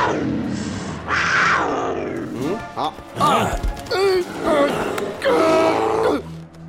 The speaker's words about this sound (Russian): На арену выходит медведь и рысь.